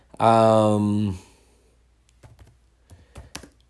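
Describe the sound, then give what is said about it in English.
Typing on a computer keyboard: after a brief hummed voice, a few soft, irregular key clicks tap out during a quiet pause. “If you hear me typing, I'm going to look this up real quick, okay?”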